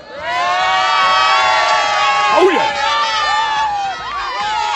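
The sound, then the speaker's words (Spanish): Girona football fans cheer after the final whistle of the match that wins promotion to Primera División, a loud, sustained crowd roar of chanting, shouts and whoops that swells and stays dense throughout. “aquí tienes cómo animan desde que ha acabado el partido”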